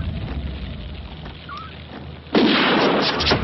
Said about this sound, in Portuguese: Agora foi. Tiro na cabeça.